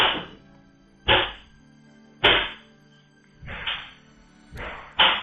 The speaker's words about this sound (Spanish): Así sonaba, grabado desde la cámara de seguridad, el paso del incendio por la terraza en la casa de Belén.